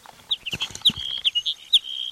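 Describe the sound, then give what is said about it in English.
A hedge sparrow sings a quick run of many short, high chirping notes, bright and clear, some clipped and some slightly drawn out, with no voices. “Hedge sparrow number two.”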